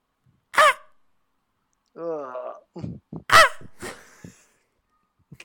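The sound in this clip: A person mimics the noise a cat makes at about five in the morning after climbing onto the bed and scratching at the duvet. The imitation is a few short, nasal wailing cries and throaty yowls of varying pitch, separated by silences.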